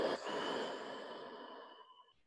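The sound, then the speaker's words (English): A slow breath during a guided breathing exercise: one long, airy exhalation that starts strongly and fades gradually, heard alone with no talking. “Breathe in. Breathe out.”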